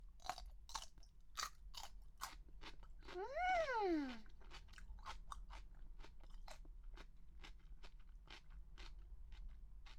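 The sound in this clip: Crisp crunching of pickled cucumber being chewed, with many steady, evenly spaced bites that stay quiet throughout. A short tonal sound that rises and then falls in pitch cuts in midway.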